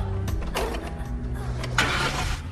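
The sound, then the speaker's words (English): A car engine starting: a low rumbling idle broken by a few bright bursts of cranking and revving noise, fairly faint throughout. “Tom zooms off in his car.”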